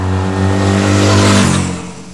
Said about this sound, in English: Also try out a Hyundai Tucson hybrid sports utility vehicle and see what that is like. In fact, let's find out right now on the Rock and Road podcast.